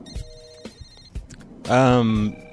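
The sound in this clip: A telephone rings with an incoming call from an unknown caller during a prank-call phone show. One loud, buzzing ring lasts about half a second and follows a few brief bits of voice.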